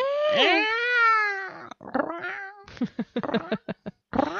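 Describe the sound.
A person imitates a cat meowing, drawing out a long, wavering, high-pitched meow, then following with shorter yowls and a string of choppy vocal bursts.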